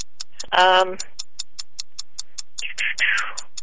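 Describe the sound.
A game show countdown clock ticks in a steady, even rhythm of many sharp clicks, while brief bursts of voices break in over the ticking.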